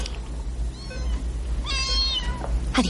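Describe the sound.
A cat meows twice in short, plaintive cries, the second one longer, as a nurse carries it away. The cries are faint against a quiet background hiss, and a voice says a single brief word at the end.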